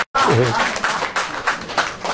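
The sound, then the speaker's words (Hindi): Audience applause at a Hindi poetry recital, a dense wash of clapping that starts abruptly after a brief voice and carries on evenly to the end. “कितने अच्छे मुक्तक पे ताली बजनी चाहिए।”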